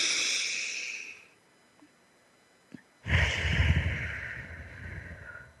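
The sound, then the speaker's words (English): A deep, audible breath: one long airy breath fades out, then after a quiet pause a second, louder and fuller breath swells and slowly tapers away. “One more big breath.”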